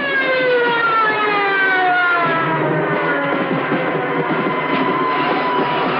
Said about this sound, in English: As a police car approaches, Angelo runs into the darkness.